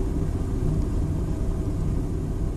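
A car drives along a country road through sunflower fields, giving off a steady, low rumble of engine and tyre noise with no break.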